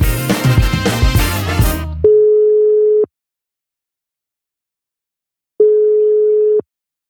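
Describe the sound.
Ringback tone of an outgoing phone call that goes unanswered: two steady, mid-pitched one-second beeps separated by a long silence, following a brief stretch of music.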